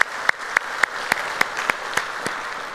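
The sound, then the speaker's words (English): Applause from a church audience welcoming a family into a Sunday service, with steady clapping and evenly spaced sharper accents running through the short burst, and no talking. “So if you would put your hands together and welcome them into our study of God's Word here today.”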